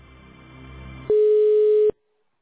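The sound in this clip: Telephone busy signal from a call that will not connect: one steady, fairly loud mid-pitched tone lasting just under a second, preceded by a low muffled background murmur and followed by silence.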